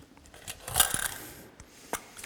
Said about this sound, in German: Ich habe die irgendwo gefunden, diese Münzen. Was heißt das? Irgendwer hat sie wahrscheinlich verloren, oder?